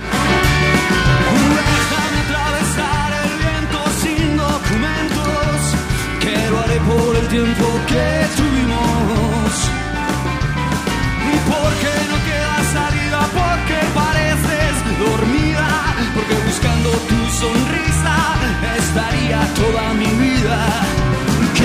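A live album recording of a rock concert tour plays as a dense, driving band sound that stays loud and unbroken throughout, with a steady pulsing beat and full harmonic texture.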